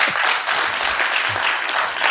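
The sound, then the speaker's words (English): Applause and a standing ovation fill a church after a baptism. Dense, steady clapping stays loud and even for the whole stretch, with no voices heard above it. “I don't get nearly as many applause as you do. And you got a standing ovation and everything.”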